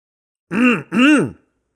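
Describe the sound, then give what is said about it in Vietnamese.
An elderly woman clearing her throat with two quick, voiced rasping bursts of about equal length, loud and alone, with a tiny gap between them. “Thò vừa nói xong thì bà Tú hắng giọng, khiến cho ông bà giáo chỉ biết đứng im mà không dám ngồi”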